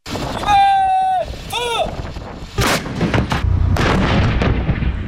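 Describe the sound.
Artillery guns fire the first round of strikes during a military live-fire exercise at over 4,000 metres altitude: a few heavy, booming blasts with rumbling tails follow an early tonal call.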